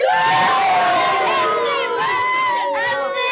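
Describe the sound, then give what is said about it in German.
A crowd of football fans cheering: loud, sustained massed shouting and whooping voices with wavering pitch, continuing without a break for a few seconds. “Das hört sich an wie Fans beim Fußball.”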